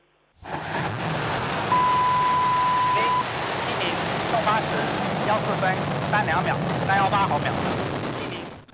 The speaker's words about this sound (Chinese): 8:14，长征七号遥十一运载火箭点火起飞。